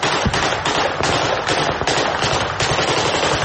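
Loud, rapid gunfire and blasts from a Russian military training exercise near a village, fired with training rounds and training explosives. The shots crack in a fast, unbroken rhythm with no voices.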